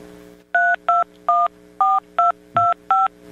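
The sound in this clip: Touch-tone telephone dialing of a phone number: seven crisp, evenly loud dual-tone beeps in quick succession, each short and separated by brief gaps over a faint low hum.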